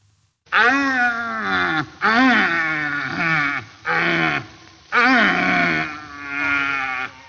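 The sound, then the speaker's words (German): A red deer stag roars during the rutting season. Deep, groaning bellows come one after another with short pauses between them, each rough and drawn out, and they are loud and clear against a quiet background. “Nein, es ist nicht dein Nachbar, das ist ein Rothirsch. Die haben nämlich gerade Paarungszeit und das ist wirklich so. Also die brüllen sich tagelang die Lunge aus dem Leib”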